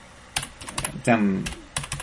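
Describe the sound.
Typing a chat message on a computer keyboard: a run of irregular clicks and taps, with a brief voice sound partway through.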